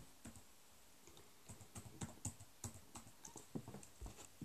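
Quiet typing of a chat message on a computer keyboard during a Minecraft Bedwars game: many quick, light keystrokes in uneven bursts, with no voices.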